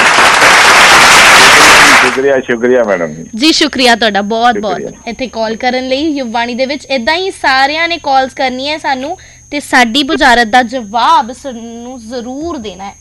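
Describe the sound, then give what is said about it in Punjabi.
Applause from a studio audience after a correct answer on a Punjabi riddle quiz show: a brief, dense burst of clapping for about two seconds, then it cuts off and people talk. “ਜਿੱਤ ਕੇ ਪਹਿਲਾਂ ਤਾੜੀਆਂ ਮਾਰਾ ਦਿਓ ਜਰਾ।”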